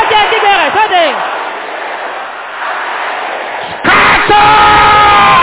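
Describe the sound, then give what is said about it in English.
A crowd at a prayer gathering shouts and yells loudly as a sustained wall of voices, dips briefly, then surges again at full strength near the end. “Can I hear you shouting loud?”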